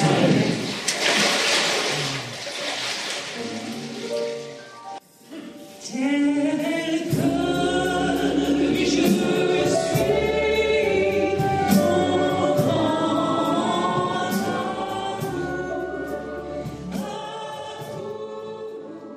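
Water splashes and churns loudly for about five seconds during a baptism by immersion, then gives way to music that carries on steadily.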